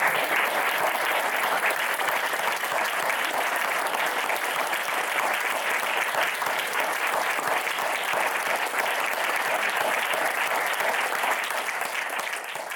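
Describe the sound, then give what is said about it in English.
An audience gives a dense, sustained round of applause at the close of a roundtable on poetry and performance at Shakespeare's Globe. The steady clapping holds at an even level throughout and dips slightly only at the very end. “Give them another round of applause.”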